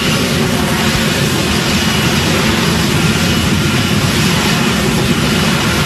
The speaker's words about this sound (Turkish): Bir F-35 savaş uçağı Beyaz Saray'a yakın konumdaki Jefferson Anıtı çevresinde alçak irtifada uçarken görüntülendi.